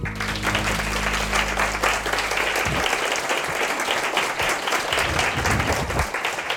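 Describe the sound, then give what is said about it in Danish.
Applause from a live audience at a language festival: dense, steady clapping that fills the whole clip at an even, fairly loud level. “som man kunne høre, så sender vi i dag live foran et forventningsfuldt publikum til sprogfestivalen Sprogense”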